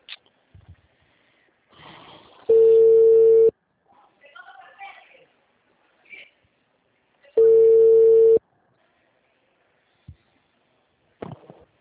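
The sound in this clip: Telephone ringing tone on a call: two steady, low-pitched tone bursts of about a second each, separated by a long pause with faint rustles and breathy noises.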